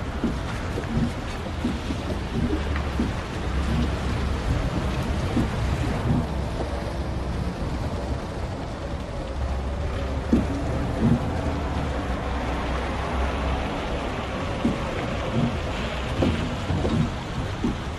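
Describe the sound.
Steady rain pours during a storm beside a road, a dense continuous hiss with a constant low rumble underneath. It stays even and loud throughout, with no pauses.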